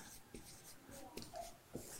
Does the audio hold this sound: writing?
yes